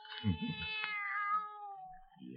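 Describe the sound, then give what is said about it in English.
A young kitten meows: one drawn-out, fairly faint cry that slides gradually down in pitch, followed by the start of another meow at the end. “Nobody's going to hurt you, kitty, kitty. No. How about some milk, huh?”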